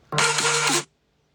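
An alarm clock going off with one harsh, steady buzzing tone that lasts under a second and stops abruptly, followed by silence.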